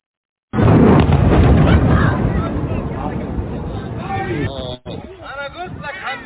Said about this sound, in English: So as you see, airstrike inside Rafah city. It's near the tents and displaced camps.